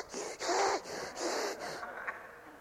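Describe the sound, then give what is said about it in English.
A man imitates heavy breathing through the nose, mimicking someone with a congested nose. A few quiet, breathy, snorting inhales and exhales follow one another in a short rhythmic run, with no words. “The guy is breathing like this.”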